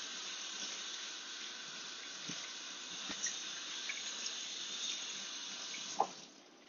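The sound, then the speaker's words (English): Running tap water at a sink as hands are rinsed while seasoning chicken with garlic powder and salt: a faint, steady hiss with a small clack near the end before the flow stops. “going to rinse our hands really quick.”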